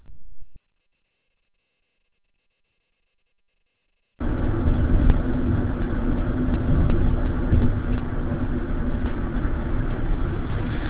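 Car engine noise recorded inside a moving vehicle: after a brief sound and a long stretch of silence, a steady, muffled low rumble starts abruptly and continues evenly, with no voices.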